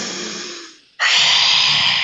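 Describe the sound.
Breathing exercise: a softer breath fades out, and after a short silence comes a loud, forceful, breathy exhale through the open mouth with the tongue stuck far out, steady and harsh for about a second.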